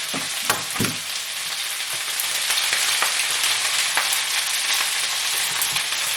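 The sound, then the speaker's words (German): An egg sizzles in a frying pan as it is stirred like scrambled egg, with a steady, fairly loud frying hiss throughout and a few short clicks and scrapes from the stirring. “Ich mache jetzt noch das Ei mit dran. Wie gesagt, das mache ich wie ein Rührei.”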